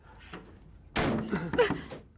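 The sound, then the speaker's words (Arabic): A door slammed shut in a heated domestic quarrel: a single sudden loud bang after a quieter moment, its rattling noise trailing on for about a second. “ليش قفلت الباب هيك افتحوا يا مجنون”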